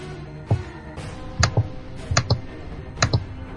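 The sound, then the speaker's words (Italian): Keystrokes on a laptop computer keyboard come as a few sharp clicks, mostly in quick pairs, spaced out over a faint background hum, with no talking. “Chi è che sta battendo furiosamente sulla tastiera?”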